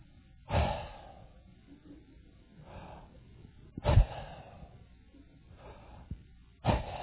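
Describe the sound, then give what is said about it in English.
A voice imitates a man's labored, wheezing breathing: a few raspy, gasping breaths, with louder wheezes alternating with softer ones and short quiet gaps between them. “I think he had some kind of a breathing problem. Because while I'm preaching, I can hear him go,”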